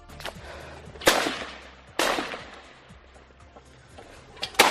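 Gunfire as Hamas attackers storm a house in an Israeli kibbutz: a few sharp, loud cracks spaced apart, with a murky low rumble between the shots.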